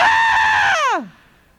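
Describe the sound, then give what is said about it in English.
A voice imitates a woman's sudden scream: one loud, high shriek that holds steady, then slides sharply downward and breaks off. “suddenly a woman screamed,”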